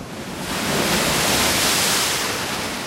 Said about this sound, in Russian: Но вот перед ними море. Бушует, шумит на просторе. А в море высокое ходит волна.